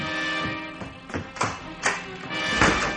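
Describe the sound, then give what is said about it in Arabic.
Loud, heavy knocking on a door, several irregular thuds in a row over a steady background tone. “في يوم سمعت خبط جامد على الباب”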